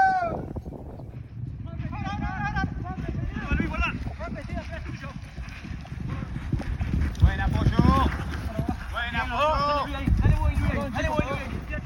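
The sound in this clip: Hoofbeats of saddled horses with taped legs riding out onto a pato pitch, a steady run of clip-clop under voices calling and shouting throughout.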